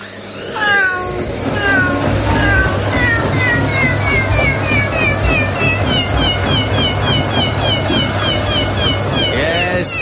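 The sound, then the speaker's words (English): A sound effect of a cat inside a washing machine on its spin cycle: repeated high, wavering meows and yowls run over a loud, continuous mechanical drone throughout. “That was, of course, Tabby in a Spin Cycle, winner of the Radio Academy's Sixth Sound Effect of the Year Award 2002.”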